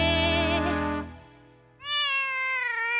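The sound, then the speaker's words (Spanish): Cat meowing: two drawn-out meows separated by a brief near-silent gap, the second one higher-pitched and sustained to the end. “un maullido”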